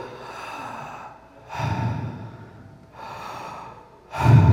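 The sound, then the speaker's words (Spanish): Deliberate breathing in and out, shown as a demonstration: a few long, airy inhalations and exhalations that alternate at a steady, unhurried pace. The breaths are moderately loud and heard alone, with no talk. “Mira, fíjate, cuando yo respiro, hago,”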